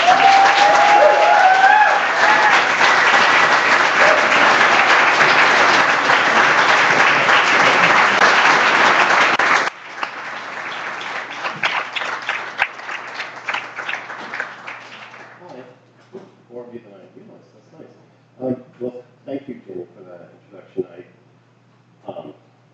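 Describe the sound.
Audience applause welcoming a poet to a reading: dense, loud clapping for about ten seconds, then thinner, quieter clapping that fades out, followed by a single voice speaking alone.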